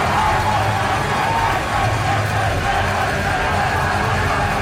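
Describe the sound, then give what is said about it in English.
A crowd roars in sustained celebration as the Niverville Nighthawks win the Centennial Cup, a loud, dense, unbroken wall of noise that holds steady for the whole stretch. “that is the sound of the Niverville Nighthawks capturing their first ever Turnbull. Oh, sorry. No, that's the Centennial Cup. Of them winning the Centennial Cup.”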